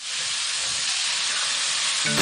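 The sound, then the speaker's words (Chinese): Loud, steady sizzling of Sichuan twice-cooked pork, fatty meat stir-fried in hot oil. A dense, bright hiss runs without pause from start to finish, with no voices over it. “我们四川的回锅肉，它还是先要放油，虽然它这个肉里面有肥肉， 也就是咱先炒肉，是吧？”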